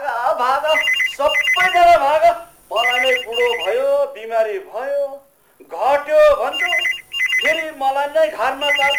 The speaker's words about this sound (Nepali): उठाउँछु बाबा हजुर म उठाउँछु तर अर्काको फोन रहेछ भने चाहिँ बोलाउनु चाहिँ जान्न नि हुन्छ